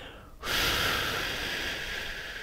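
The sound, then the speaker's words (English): A single long breath during a guided breathing exercise, meant to be drawn in through the nose and let out slowly through the mouth: a steady, airy hiss that starts abruptly after a brief quiet moment and holds evenly for about two seconds. “In through the nose, feel your abdomen, then your ribs, then your throat.”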